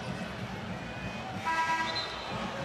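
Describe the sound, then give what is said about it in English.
A referee's whistle calls a foul at a basketball game, a brief shrill tone rising out of steady background noise. “a whistle foul called on Hepburn”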